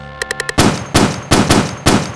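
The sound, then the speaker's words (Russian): Makarov pistol gunshots: a few quick light clicks, then five heavy, punchy bangs in an uneven rhythm, each with a brief ringing tail. “Соло на Макарове.”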